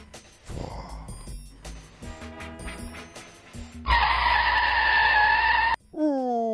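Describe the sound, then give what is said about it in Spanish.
A car brakes hard and its tires skid in a loud, sustained high screech of about two seconds. The screech follows a quieter, busier stretch of sound and cuts off abruptly. “Disculpen la frenada”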